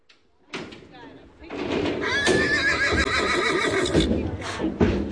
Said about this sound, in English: This game is built around a trail ride. It's late September, and horses and their riders from across the state gather